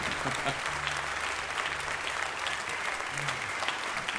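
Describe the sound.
Many hands clapping from an audience at a college jazz event, a continuous, even wash of applause at moderate level with faint low tones humming underneath.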